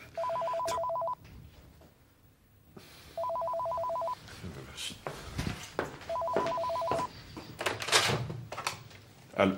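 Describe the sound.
An office telephone rings in three evenly spaced bursts of a steady electronic trill, fairly loud, with people talking between and after the rings.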